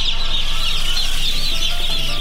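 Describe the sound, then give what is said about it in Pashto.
Chickens clucking at a poultry production farm in Khost, a dense, steady chorus of many birds overlapping continuously and loudly, with no pauses and no voices. “په دې خبرونه کې په خوست کې د چرګوړو د تولید فارم تسر وشکاره کړو.”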